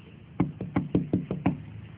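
Knocking on a bedroom door at home: seven quick, evenly spaced raps, fairly loud and heard alone with no voices.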